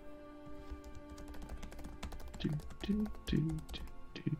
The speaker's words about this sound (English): Frickin' OneNote doesn't... I guess I gotta type it out.